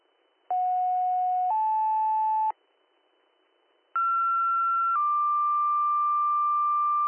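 Dispatch pager tone-out on a fire radio channel: two pairs of steady sequential tones. The first pair steps from a low tone up to a higher one. After a pause, the second pair steps from a higher tone down to a longer, slightly lower one.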